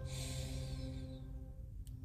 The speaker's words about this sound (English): Then open the mouth and audibly let it all out.